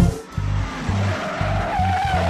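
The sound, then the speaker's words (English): Tires squeal and burn rubber during a 1968 film car chase filmed in San Francisco, with a loud engine revving in repeated pulses beneath the screech, which climbs higher in pitch near the end. “That's the sound of Steve McQueen burning rubber in the 1968 movie Bullet.”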